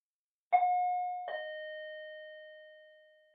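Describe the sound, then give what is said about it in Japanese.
Two-tone doorbell chime pressed at a front door, a bright ding followed by a slightly lower dong, each note ringing out in a long, smooth decay with nothing else heard. “一応ピンポーンしないとダメだね。失礼だね。じゃあ、押すね。”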